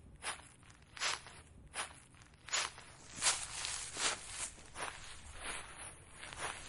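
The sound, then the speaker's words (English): Crunchy footsteps of children walking through piles of autumn leaves on a windy day: many quiet, crisp rustling steps in an uneven but steady stride. “Gemma and her friends walked through piles of leaves. The leaves made a lovely sound.”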